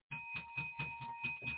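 Bell rung during a church service, a faint sustained ringing tone with a quick, regular pulsing beat throughout, heard alone without voices.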